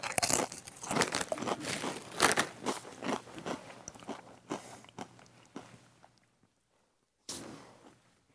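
Crunchy Doritos tortilla chips are bitten and chewed in many rapid, crackling crunches that fade out, then after a short silence one more loud crunch begins.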